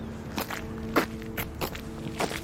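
Footsteps walking up a street on a windy, drizzly morning. A handful of soft, faint, unevenly spaced steps sound alone.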